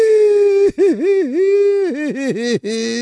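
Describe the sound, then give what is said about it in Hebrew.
A person crying in a long, drawn-out, quavering wail, the voice repeatedly dipping and rising in pitch in sobbing pulses, loud and unbroken apart from brief catches of breath. “מה אתה בוכה? הולכים להרוס את סדום. אז לכן אתה בוכה?”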